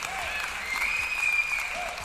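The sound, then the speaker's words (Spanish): An audience on a show applauds with dense, continuous clapping that stays fairly even for about two seconds. “¡Aplausos para él!”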